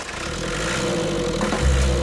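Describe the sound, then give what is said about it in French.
An old turbocharged race car engine starts up, with a steady mechanical churn that builds into a louder low rumble as it catches near the end, heard alone. “Il y a quelques boutons en plus, un coup de démarreur. Bingo. Toujours du premier coup.”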